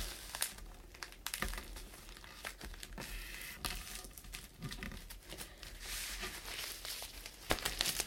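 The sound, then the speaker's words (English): Paper being accordion folded, giving many crisp crinkles and sharp creasing snaps. The rustling is fairly quiet and irregular, with a few louder crackles standing out. “And I'm going to accordion fold that. All the way along.”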